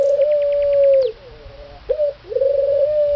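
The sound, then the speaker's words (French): Mourning dove cooing: loud, low, hollow sustained coos with brief breaks between phrases, and faint high chirps near the start. “la tourterelle triste”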